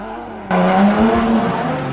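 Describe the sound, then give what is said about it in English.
A race car engine and squealing tires, played back from a recording of a toy-car showcase. A short quiet lead-in gives way to a sudden loud, high, whining engine tone with tire squeal that holds for about a second and a half. “No, I'm not at a F1 racetrack, but merely playing back sounds from a Hot Wheels showcase.”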